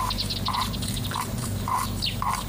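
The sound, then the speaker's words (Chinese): A white-feathered parrot chirps in short bright bursts, repeating several times over a steady low hum, with no voices. “朕怕你闷着，特意给你送了一只白羽鹦鹉给你，你可喜欢吗？ 鸟语逗人一笑，臣妾喜欢。”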